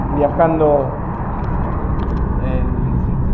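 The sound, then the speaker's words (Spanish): A steady, loud low rumble fills a car interior during a 54-kilometre daily drive from Pilar to San Martín. A voice speaks briefly at the start, and the drone continues unbroken. “viajando en el auto, en un viaje que hago desde Pilar a San Martín, son 54 kilómetros todos los días al trabajo”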